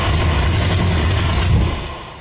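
A 1981 Dodge car engine rumbles in a rough, steady low drone that holds level, then eases off slightly at the end.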